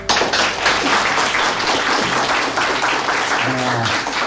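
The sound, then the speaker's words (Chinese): Sustained, loud applause for soldiers, the naval aviators involved in aircraft-carrier landings, hailed as heroes. The clapping is a thick, even wash that holds steady for several seconds. “你们就是英雄，为你们鼓掌。”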